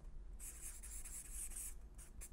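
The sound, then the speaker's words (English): Scratchy pen strokes as lines are drawn while writing, a dry hiss that runs in several loud, steady strokes, then a few short separate marks near the end, with no voices. “Just draw these lines up here.”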